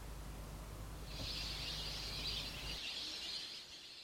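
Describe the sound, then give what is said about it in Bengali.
Dense high-pitched twittering from a winter flock of migratory birds at a lake in Dinajpur, Bangladesh. The chirping chorus rises over a low steady hum, holds for a couple of seconds, then thins out near the end. “প্রতিবছর শীতে পরিযায়ী পাখির কলকাকলিতে মুখরিত হয়ে ওঠে দিনাজপুরের বিরল উপজেলার কয়েকটি দিঘি, যার মধ্যে অন্যতম মাটিয়ান দিঘি। এবছরও এসেছে হাজারো অতিথি পাখি।”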